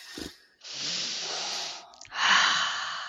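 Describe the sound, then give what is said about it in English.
A long, deep breath taken as part of a guided mood-shifting exercise, heard as two sustained, airy hisses with a brief quieter gap between them, steady and fairly loud, with no talking. “let's take a long, deep breath.”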